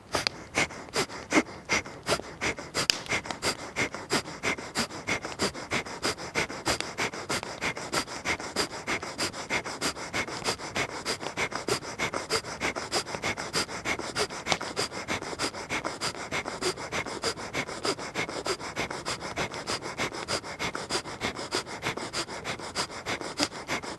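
Forceful exhalations are pushed out rhythmically through one nostril in pranayama breathing, many sharp, evenly spaced nasal puffs at a fast steady pace with no talking.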